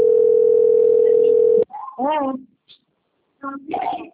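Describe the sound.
A steady, unbroken telephone tone sounds during an outgoing call. It holds at one pitch for about a second and a half, then cuts off abruptly, and voices follow.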